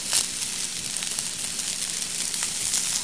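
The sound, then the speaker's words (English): Fried rice with vegetables sizzles steadily in a pan, a continuous bright hiss with faint crackle that holds an even level throughout, with no voices over it. “you add in your vegetables and your rice. I'm gonna flatten that out a little bit, let that cook some more.”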